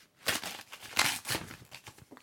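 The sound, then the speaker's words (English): A paper envelope holding a letter is ripped open along its last edge, making a few rasping tearing bursts with crinkling between them. “It's ripped down one side, but it's here, and I'm just going to rip the last bit.”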